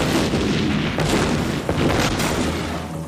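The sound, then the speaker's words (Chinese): Land mines detonating under the leading tanks in a muddy minefield: a dense, continuous heavy rumble of booming blasts, loud throughout, with no clearly separate bursts. “我们驶进了雷区，很快最前面三辆坦克触雷，”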